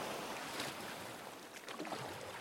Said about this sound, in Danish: padler alt, hvad han kan i sin lille gummibåd. Væk fra stranden og direkte ind i et fuldstændigt mørke.